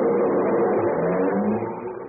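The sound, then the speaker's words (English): A comedy sound effect of a car engine revving and driving away, a steady mid-pitched engine drone that fades slightly toward the end. “He drove the piano right out of the studio.”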